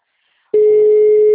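A telephone busy signal heard during a phone call: one steady, loud, mid-pitched tone starts abruptly partway through and holds unbroken to the end, with no voices.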